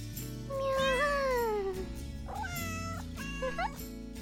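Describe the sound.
A person imitates a cat's meowing, making a few drawn-out, wavering meows. The first is long and slides downward in pitch, and shorter meows follow near the end.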